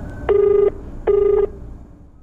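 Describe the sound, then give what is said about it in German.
Two steady electronic ring tones of an outgoing telephone call, each a flat, mid-pitched beep lasting under half a second and separated by a brief pause, fairly loud and alone. “Anruf bei Anand Mangnale”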